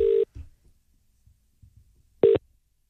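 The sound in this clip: Telephone line tones sound while calling a directory number: two short, steady electronic beeps, one at the start and one near the end, with faint low clicks and rustles between them.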